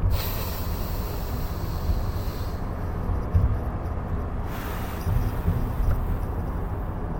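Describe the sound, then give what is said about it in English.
A deep breath is drawn in through the nose as a long, loud, airy rush of breathy noise lasting several seconds, easing and swelling again in a few uneven stages. “All right, that was one breath. That was good, right?”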